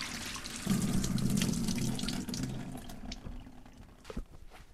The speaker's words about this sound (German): Vor dem Kochen waschen wir uns die Hände.